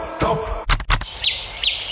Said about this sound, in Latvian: Te, kur mēs dzīvojam, ir pļava un putni dzied.